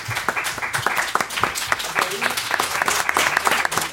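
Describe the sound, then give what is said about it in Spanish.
Audience applause from a crowd of roughly 700 people at a live event: dense, steady clapping that holds at a fairly loud level for the whole stretch without a clear fade. “un aplauso aquí para el caballero que se la está currando todos estos días”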